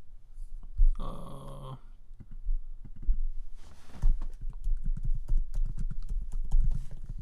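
Rapid, light clicking of typing on a computer keyboard as a search query is entered, a steady patter of keystrokes for several seconds.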